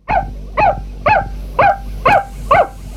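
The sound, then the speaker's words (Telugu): A pet puppy barks excitedly, seven loud, bright barks spaced evenly about half a second apart, each with a slightly yelping, rising-then-falling tone, heard alone without talk. “మా Tommy ఊరికే అరవదు. అదిగో హరిని చూసిందిగా, హరిని చూసిన సంతోషంలో అరిచింది.”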